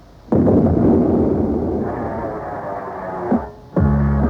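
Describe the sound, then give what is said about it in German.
Artillery cannonade from a German soldiers' radio station, a sustained roaring barrage of dense low booms lasting several seconds, easing off, then a sharp burst and a renewed heavy blast near the end, with a tonal radio-like hum underneath. “Sie hören die Kanonade des deutschen Soldatensenders.”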